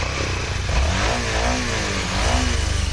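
Motorcycle engines rev loudly at a rally of riders: a dense, continuous mechanical roar whose pitch wavers up and down as throttles are blipped, with no talk over it.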